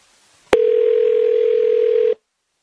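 A ringback tone on an outgoing phone call: one long, steady, even-pitched ring of about a second and a half. A sharp click comes just before it, and the line is quiet on either side.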